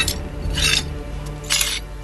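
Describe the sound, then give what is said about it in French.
Shards of a broken plate being picked up, giving a few short scraping, clinking bursts over a low steady hum. “Je ramasse les éclats”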